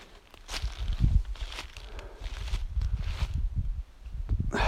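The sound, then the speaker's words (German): Footsteps of a hiker climbing uphill through thorny bushes, crunching in an uneven rhythm mixed with rustling and scraping of branches, moderately loud and continuous throughout. “Boah, jetzt, schon, jetzt bin ich schon ziemlich weit raufgegangen. Aber weiter geht's zwischen den ganzen Stacheltreten durch.”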